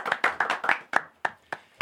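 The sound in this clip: Nine sharp hand claps, quick and close together at first, then spaced further apart, as thanks to the beatmaker after a rap freestyle session.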